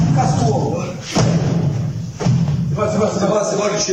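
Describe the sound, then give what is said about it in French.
Dull, heavy thuds of blows to a man lying on the ground, his head hitting the ground, from a filmed violent assault: a few muffled impacts within a noisy, murmuring background. “Le bruit mat qu'on entend, c'est les coups qu'il prend et exactement. C'est sa tête qui heurte le sol. C'est les coups que vous entendez.”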